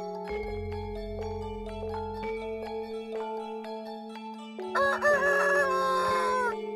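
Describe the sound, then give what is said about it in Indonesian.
A rooster crows once near the end, a loud, wavering harmonic call about two seconds long, heard over steady sustained tones that run through the whole clip. “Kupengku nangkep swara jago kluruk.”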